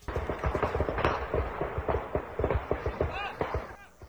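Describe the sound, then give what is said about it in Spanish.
Rapid bursts of rifle gunfire ring out in avocado orchards as many sharp, irregular cracks, with voices mixed in underneath. “cortadores de aguacates se observan hincados y pecho tierra intentando resguardarse detrás de una camioneta, mientras escuchan las ráfagas de armas largas en las huertas.”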